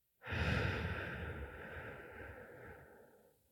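A single long, deep breath released during guided meditation, a soft airy rush that begins suddenly and slowly fades away over a few seconds, faint and alone.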